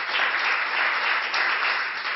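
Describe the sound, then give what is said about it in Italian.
Audience applause rings out in tribute to the late Pino Daniele: a dense, steady wash of many hands clapping that holds at an even, fairly loud level for about two seconds, with no single claps standing out. “vorrei fare un applauso per il grande Pino. Caro Pino.”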